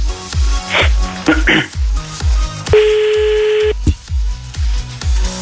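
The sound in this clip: Ringback tone of an outgoing telephone call: a single steady, mid-pitched tone lasting about a second, heard over rhythmic background music with a regular beat.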